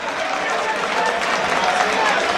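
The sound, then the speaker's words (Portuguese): Football fans applauding in the stadium during a Vila Nova match against Aimorés: a steady, dense wash of crowd clapping and noise, with a commentator's voice talking over it. “Um aplauso do torcedor. Torcedor voltou a ficar animado.”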